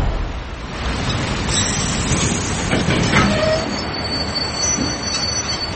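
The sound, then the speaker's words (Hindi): Train arriving at a railway platform, a loud, continuous rumble of wheels on rails with faint high-pitched squeals rising above the steady roar throughout. “सामने से train platform की ओर आ रही है। धोनी लगातार उस train को देख रहा है, ट्रेन उसके ठीक सामने आ गई है।”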